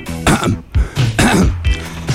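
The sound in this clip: A man clears his throat in a few loud, gruff, rasping bursts in close succession, without any words.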